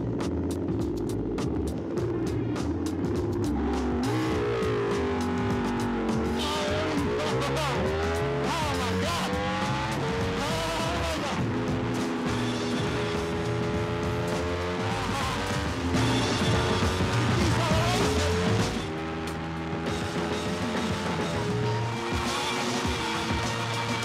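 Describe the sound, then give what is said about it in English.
A 2012 Ducati racing motorcycle laps the Silverstone racetrack, its engine screaming loud and continuous in repeated rising pitch sweeps between gear changes, with a brief drop in level near the end. “It's one of the Ducati bikes from the 2012 season. And they're gonna send me around. Oh, there we are. That's easier to talk. Send me around the Silverstone racetrack”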